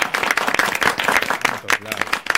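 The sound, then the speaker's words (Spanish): Applause breaks out in a radio studio during a chatty show, with uneven bursts of clapping rising and dipping over about two seconds while voices talk and shout over it. “aplauso para nosotros.”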